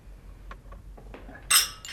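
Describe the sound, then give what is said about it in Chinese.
Red-wine glasses clinking together in a family birthday toast: a few faint small taps, then one bright, ringing clink much louder than the rest, followed by a quieter touch. “咱们碰一个啊！”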